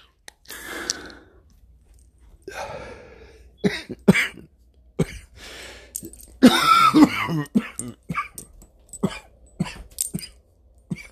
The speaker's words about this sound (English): So I got an inhaler from the doctor. Give me a second. I'm sorry. I'm going to have to pause real quick and take a couple puffs.